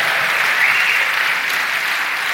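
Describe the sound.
A live audience breaks into applause, a dense and even sheet of many hands clapping at once that stays steady and fairly loud throughout.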